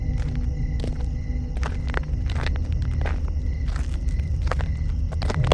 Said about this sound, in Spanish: Así que sin más opción, me armé de valor y avancé a paso rápido.